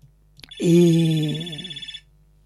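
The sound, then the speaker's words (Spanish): A telephone rings with an incoming call: one ring burst of about a second and a half, steady bright tones over a lower buzzing body, ending in a fast pulsing flutter before it cuts off. “Y bueno, vamos a atender la llamada primero.”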